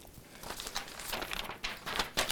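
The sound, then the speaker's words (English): Paper pages are turned, giving faint papery rustles and crinkles with several soft brushing bursts that grow a little louder toward the end. “Or excuse me, I turned up the wrong page.”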